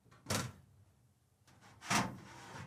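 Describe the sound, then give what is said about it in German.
A cupboard is opened and someone reaches inside it. Two faint, soft rustling thumps are separated by a quiet pause. “Und noch was, ich greife wieder in meinen Schrank.”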